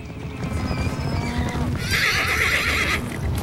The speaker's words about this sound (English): his horse, which whinnies as mustangs gallop past nearby.